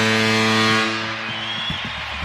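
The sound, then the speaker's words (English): Deep foghorn blast in a hockey arena at an NHL game, a loud, steady low tone held for under a second before fading into softer background noise. “this game will begin with a big foghorn here at Climate Pledge Arena.”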